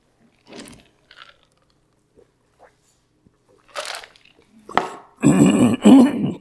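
Throat clearing and coughing from someone whose throat is irritated by pollen outdoors: faint scattered clicks and rasps at first, then a few louder, rough, gravelly bursts toward the end.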